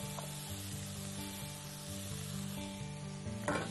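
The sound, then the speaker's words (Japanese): Onions and shimeji mushrooms stir-fry in a pan with a steady, soft sizzle. It stays faint and even throughout, with no talk. “これとこの玉ねぎとしめじを炒めて甘みを出します。”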